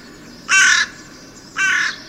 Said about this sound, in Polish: dochodzimy do czwartego gatunku, który kracze, ale nie jest czarny, to jest właśnie wrona.